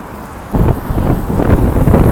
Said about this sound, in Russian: ветер сегодня, конечно, ужасный